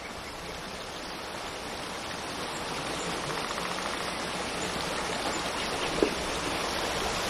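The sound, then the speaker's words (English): Calm river water gives a steady, soft rushing wash that stays even throughout, with one brief faint click near the end. “Calm river water.”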